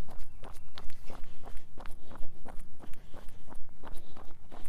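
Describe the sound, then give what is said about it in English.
Running footsteps on a long run, a steady, even rhythm of many quick footfalls carrying on without a break and without talk. “Ready, set, let's go for a run.”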